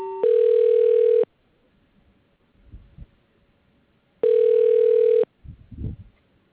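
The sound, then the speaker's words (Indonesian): Telephone line tone while a call is being transferred: two buzzing tones, each about one second long and roughly three seconds apart, with faint low thuds in between. “Boleh kamu tolong sambungkan panggilan ke bagian narkotik Lans Kopral Junaiza binti Muhammad?”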